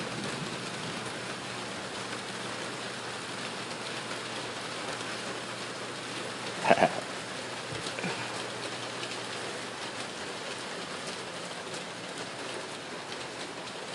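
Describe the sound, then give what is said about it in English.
Light rain falls in the desert of the American Southwest, a faint, steady hiss of drops on surfaces, broken once by a single louder tap midway. “It's just a nice little light rain.”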